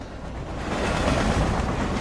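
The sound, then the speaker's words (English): A train speeds past along the tracks, a broad rushing rumble that swells in loudness and holds strong to the end, with no other sounds. “As a train speeds toward him, he turns just in time to see it. It passes right through him.”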